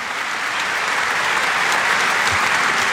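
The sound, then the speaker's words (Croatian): A studio audience applauds the team behind the long-running morning show Dobro jutro Hrvatska, whose members sit in the front row. The clapping is dense, even and continuous at a steady, full level, with no talk over it. “Pa dajte pljesak i njima. Evo, ima ih u prvom redu.”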